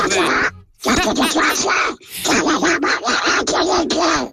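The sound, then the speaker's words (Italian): A cartoon duck's squawky, quacking speech is imitated by a dubbing voice actor in loud, raspy bursts of gabble, with a few brief pauses between them. “è il doppiatore ufficiale di Paperino, di Paper, l'avrete capito sicuramente tutti.”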